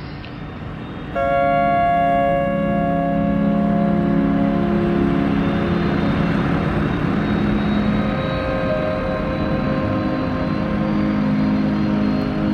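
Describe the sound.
An airplane takes off from Villacoublay military airport: a steady engine drone with layered humming tones starts abruptly after about a second and holds, loud and unbroken, to the end.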